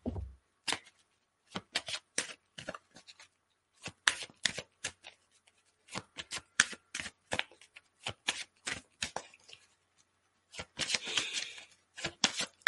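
Playing cards shuffled for a card reading: many quick, crisp riffling bursts in an irregular rhythm, ending in a longer, denser riffle, with no talking.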